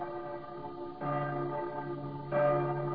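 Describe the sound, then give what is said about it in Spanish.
Church bells ring in a city, with two clear strikes whose bright, humming tones overlap and sustain, the second somewhat louder, with no voices. “cuando las campanas tañen”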